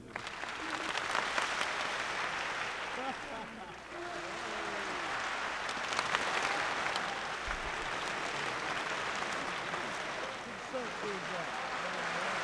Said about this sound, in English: So if I go over here, boop, you start clapping, and I move my hand across like this, and as it goes this way, you guys stop, so the sound moves around the room.